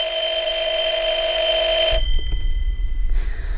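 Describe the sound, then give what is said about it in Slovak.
A telephone rings with a bright, steady electric trill of high tones for about two seconds, then cuts off abruptly, leaving a low, rough rumble. “Volá doktor Horváth, vraj dôležité.”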